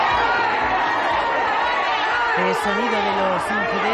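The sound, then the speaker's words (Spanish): Crowd commotion at a security cordon in Bilbao airport: many overlapping voices and chatter at a constant loud level, with a few raised voices calling out above the din. “Es sonido de los incidentes que se han producido cuando uno de los familiares se ha saltado el cordón de seguridad.”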